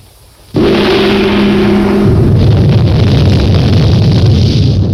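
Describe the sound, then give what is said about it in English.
A sudden loud burst of fire and smoke as a witch doctor character throws something onto the ground, hitting at about half a second and swelling into a sustained roaring rush, with a steady low hum underneath for the first two seconds. “A witch doctor character has just thrown something on the ground and a big huge fire plume of smoke has appeared.”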